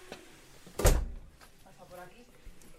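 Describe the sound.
A door being closed in a house gives a single solid thud, with people talking quietly around it.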